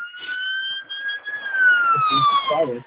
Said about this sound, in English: There's our siren.